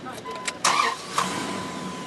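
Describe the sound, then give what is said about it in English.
A car engine starts up in an unmarked police car, with a short burst of cranking noise followed by a second brief surge, over a steady background hum. “The team heads out in three unmarked police cars.”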